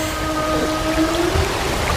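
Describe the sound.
Whale call, a faint underwater moan with thin sustained tonal lines rising gently in pitch over a low rumbling, watery background, lasting about two seconds without any talk.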